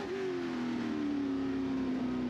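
Race car engine at full throttle on a night lap at Le Mans, coming through the final corner onto the front straight, a loud, sustained droning tone whose pitch sinks slightly and steadily.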